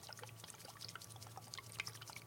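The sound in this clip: A bottle of IPA beer being shaken, giving a steady, faint liquid sloshing and trickling with no pauses.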